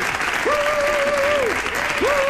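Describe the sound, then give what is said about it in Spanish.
Audience applause greeting a guest called onstage, a thick, continuous clatter of many hands at even volume, with a voice calling out over the clapping. “¡Un aplauso, un aplauso para André Buenafuente”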